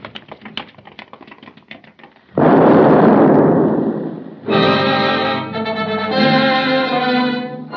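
A bomb explodes outside the Kaiserhof Hotel, the heavily guarded headquarters of the French Engineering Commission: scattered crackling clicks give way to a sudden loud, roaring blast lasting about two seconds, followed by a sustained tonal ringing.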